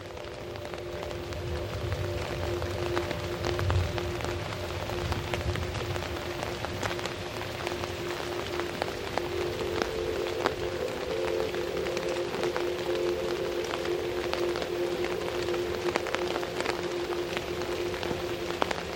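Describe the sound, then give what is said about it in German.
Steady rain patters on a surface, with dense, even hiss and many small drop ticks that carry on without a break for the whole stretch. A faint low hum sits underneath, and no voices are heard. “Das Wattebett scheint dich sanft zu wiegen, während der Regen sein monotones, einschläferndes Lied singt.”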